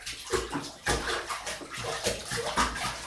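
Water sloshes and splashes in a bathtub as a child is washed, with soft, irregular swishes and splashes and no voices.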